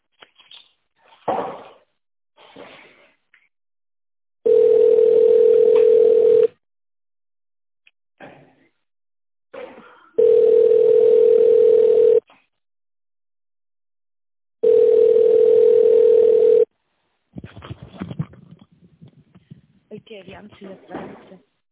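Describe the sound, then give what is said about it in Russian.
A voicemail beep marks the point to leave a message, sounding as three long, steady, fairly low tones of about two seconds each, with speech before, between and after them. “Также можете оставить голосовое сообщение после звукового сигнала.”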